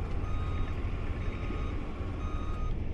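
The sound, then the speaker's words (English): An end loader pushing dirt and gravel at an airport runway construction site sounds its reversing alarm, steady repeated beeps riding over a loud, low diesel engine rumble. “The end loaders are out busy pushing dirt and gravel around.”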